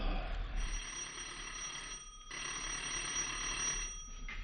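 A doorbell rings in one long, continuous metallic buzz, fairly faint and steady, with one brief break midway and a slight dip near the end.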